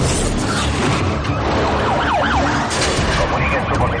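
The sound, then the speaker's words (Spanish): A police car siren wails during a car chase through narrow city streets, its rising and falling tone cutting through a continuous loud roar of engine and road noise. “un coche de policía aparece tras ellos”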